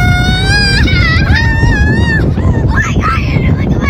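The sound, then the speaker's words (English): Acceleration of a Mercedes-AMG CLE convertible with the top down and a turbocharged six-cylinder: a loud, steady roar with a whining harmonic tone that climbs, dips and climbs again, over continuous wind and road rumble. “it is responsive thanks to a turbo six-cylinder that's powerful, smooth, and throaty. Power is put down through a snappy automatic transmission and an all-wheel drive system. Acceleration with the top down sounded like this with my kids in the back.”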